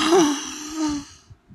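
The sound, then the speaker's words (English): A voice imitating a crowd's collective gasp of shock: a breathy, voiced intake that briefly rises and falls in pitch, then a softer second swell trailing off into quiet breath, with no words. “a collective gasp of shock”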